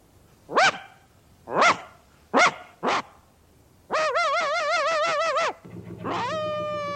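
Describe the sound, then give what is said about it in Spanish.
A dog barks on a farm: four sharp, separate barks, then a longer sustained wavering call and a final shorter tonal cry, loud with no talk. “En una granja, lejos de la ciudad, un perro transmite el mensaje subido a un altozano.”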